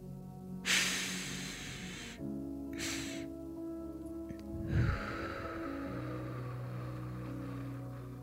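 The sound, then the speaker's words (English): Two breaths drawn in through the nose, the first long and the second short, are followed by a slow, steady exhale through the mouth as a calming breathing technique. The soft airy breaths sound alone over a faint steady background. “you take 2 inhales through your nose, the first one longer than the second, and then exhale slowly through your mouth. Let's try it together.”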